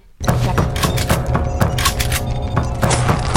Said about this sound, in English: Let me try a grenade this time.